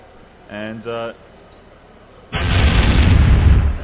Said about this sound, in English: we can actually drop a rocket as well and then let that land. Oh, yeah. And then it will explode.